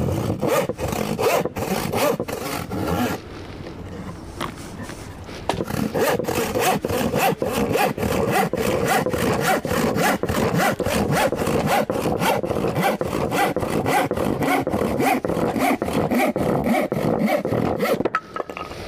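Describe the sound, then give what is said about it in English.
A handsaw cuts across 3/4 inch MDF on a 6-inch rip, with fast, rhythmic rasping strokes that run almost without a break and slow briefly early on before returning to a steady pace. “Let's see how it gets on with a 3/4 inch MDF. It's a 6-inch rip, and I'll be cutting across that.”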